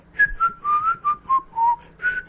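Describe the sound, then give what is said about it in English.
A person whistles the opening theme of a classical string quartet in F major: about eight clear, bright notes that step downward in a descending line, then leap back up to a high final note. “a string quartet of Beethoven, the F major, opus 59, and while I whistled the opening theme”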